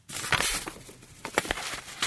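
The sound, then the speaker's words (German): Paper crinkles and rustles as a letter is folded and slipped into an envelope, a few short crisp bursts of crackling against a quiet background, with no voices. “Den Brief kurz gefaltet, in den Umschlag gesteckt, Marke drauf und ab in den Briefkasten.”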